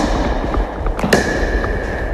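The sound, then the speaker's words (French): Two quick hollow pops of rigid pickleball paddles striking a perforated plastic ball, sounding close together against steady background noise. “Alors ça, c'est une raquette rigide, c'est une raquette de pickleball. Vous avez une balle en plastique perforée. Et là, je vous laisse déjà découvrir, puis on en reparle après.”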